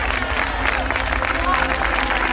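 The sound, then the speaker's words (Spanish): A church audience applauds, a thick, unbroken wash of clapping with crowd voices mixed in underneath, holding at an even level from start to finish. “Aplauda a Dios, pues, hombre.”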